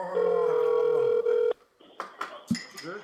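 A telephone dialing a call: a steady tone holds for about a second and a half, then breaks off into a few short, sharp tone bursts.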